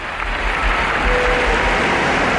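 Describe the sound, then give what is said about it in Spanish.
Audience applause during a celebration at the Sagrada Familia with drones and fireworks: dense, steady crowd clapping that stays loud and continuous from start to end. “Aplauden todos.”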